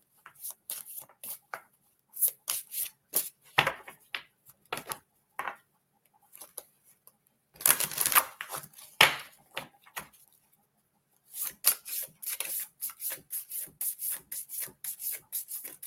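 A deck of oracle cards is shuffled in many short, dry, rubbing bursts. The faint riffles come in irregular clusters with silent gaps between them.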